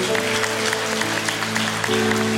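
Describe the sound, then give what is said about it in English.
An audience applauds during a church service, a dense patter of clapping running steadily over sustained keyboard chords that shift partway through. “Can we give him a hand clap of praise today?”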